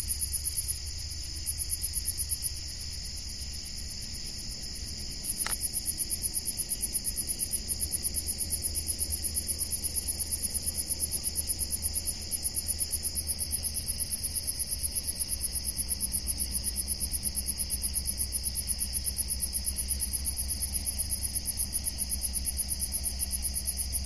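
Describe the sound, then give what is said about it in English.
Insects stridulating, scratching and scraping in a dense, high-pitched pulsing trill that runs steadily throughout, briefly interrupted near the start, over a faint low rumble with no voices. “the passage from a kingdom of songbirds to that of insects, experts in stridulating, scratching, and scraping.”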